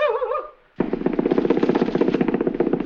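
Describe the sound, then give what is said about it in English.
A machine gun fires one long, rapid burst of loud, evenly spaced shots that lasts about two seconds. A brief wavering sound and a short silence come before the burst. “What's that? It's a machine gun.”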